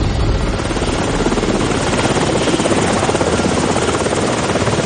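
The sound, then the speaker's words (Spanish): Three navy helicopters flying overhead from an aircraft carrier, a loud, steady rotor roar with a rapid, even blade chop throughout and no voices. “Tres helicópteros de la Marina sobrevuelan el cielo rumbo a este.”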